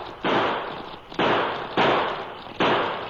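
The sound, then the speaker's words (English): Gunshots from a short-barreled pocket-model revolver fired in quick succession: four loud, sharp blasts, each trailing into a long noisy decay, at slightly uneven intervals. “In answer, the cracksman let loose of the handbar and pulled a pocket model revolver. In quick succession, he triggered out six shots.”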